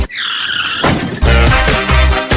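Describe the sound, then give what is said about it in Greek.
Motorbike engine revving at full throttle: a high, steady whine at first, then loud, rough bursts of engine roar that pulse a few times toward the end. “Στη μηχανή ανέβα. Και έχουμε φουλάρι τις μηχανές.”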